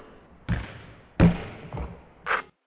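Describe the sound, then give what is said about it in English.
Basketball bouncing during a game of basketball: four solid, thudding bounces, each a short, low impact with a bright slap on top, spaced roughly evenly and heard alone. “you know, I like playing basketball. I'm playing basketball right now.”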